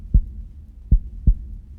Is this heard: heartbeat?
yes